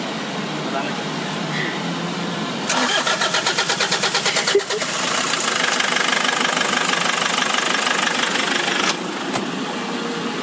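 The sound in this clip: A stalled minibus engine, broken down in the middle of a road, is cranked and starts: a rapid rhythmic cranking, then a catch into a steady running rumble that cuts off abruptly, with voices present.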